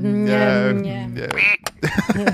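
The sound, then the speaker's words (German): A duck quack sound effect opens with a long, nasal, buzzy quack, and people then talk right after it. “Oh gut, du hast die Nummer gerettet. Das war eine Safety-Ente.”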